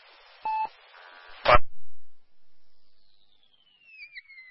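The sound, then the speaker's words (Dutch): Brief electronic beep tone from a radio transmitter being switched on, followed by a sharp click, then quiet with a faint thin whistle fading in afterward. “Maar je hebt een toontje als je inschakelt, maar kan ook iemand tegelijk zijn”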